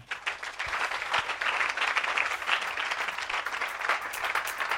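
A church audience applauding during worship: steady, dense clapping that holds at an even level throughout with no voices.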